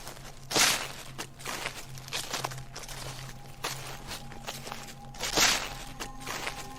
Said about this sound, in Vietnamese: chính xác là tiếng bước chân dẫm lên lá khô soàn soạt